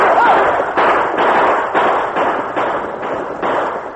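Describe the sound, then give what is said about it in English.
Gunshots from blazing guns as riders charge an outlaw gang on the open plain in a Western scene: many loud, evenly spaced bangs in a steady rapid series. “Then the point riders and the Indian rode with blazing guns to face the Corey gang.”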